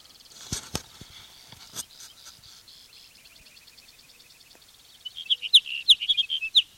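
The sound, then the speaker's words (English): A sage sparrow sings a quick series of high, sharp chirping notes near the end, after a stretch of faint, scattered clicks and soft tones. “sage sparrow number one.”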